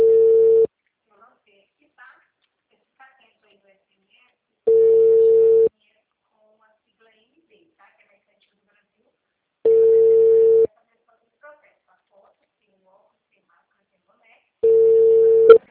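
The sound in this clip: A telephone line tone after a dropped call: four short, steady mid-pitched beeps, each about a second long, separated by long silent gaps.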